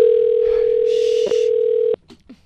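A telephone dial tone, heard while a number is about to be dialled, holds a steady, loud single pitch for about two seconds, then cuts off abruptly, leaving a few short, faint blips.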